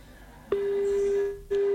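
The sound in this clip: Telephone call tone heard as a call is dialled, a steady low hum of about one second, a short pause, then a shorter second tone, fairly faint.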